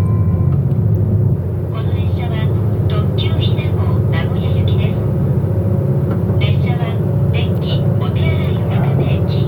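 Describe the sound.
A car drives off, its engine and road noise making a loud, steady rumble while someone talks over it.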